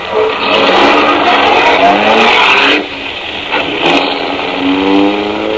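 A car pulling away from a red light at an intersection, its engine roaring loudly and steadily as it accelerates, with a short dip in the middle before the drone picks back up.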